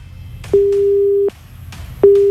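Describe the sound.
Telephone busy signal on a phone-in call that fails to connect: a loud, steady low beep sounds, cuts off into a brief gap of low hum, then returns, with no voices.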